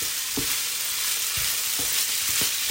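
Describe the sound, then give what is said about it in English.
Savoury rice stirred and folded in a frying pan, with a steady loud sizzle throughout and a few soft scraping strokes of the stirring. “The rice is looking very orangey. The dish is looking a little bit darker now. I'm just kind of folding it through.”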